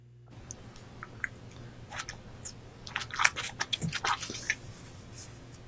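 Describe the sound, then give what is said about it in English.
Sped-up mukbang eating: many wet, squishy chewing and biting clicks, sparse at first, then denser and louder in the second half. “Mukbang. It's a mukbang. That this right is there. Sped up, too. That's gross.”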